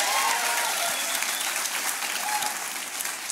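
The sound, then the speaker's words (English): A church audience at an Easter 2022 service claps in steady, dense applause that holds at an even level throughout. “Can you make some noise for Jesus? One more time. Come on.”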